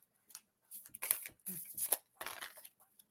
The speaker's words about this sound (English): I'm just pulling cards for the rest of you guys now.